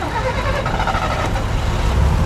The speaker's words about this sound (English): At a bus stop in downtown Barcelona